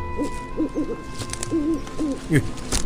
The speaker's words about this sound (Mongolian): Саяах юу гэсэн бэ? Шар шувуул мэнштэй